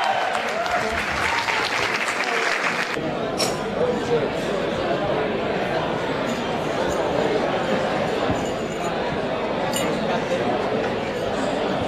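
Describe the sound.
Guests cheer and applaud at a football awards ceremony, with dense, steady clapping that continues throughout and voices mixed in.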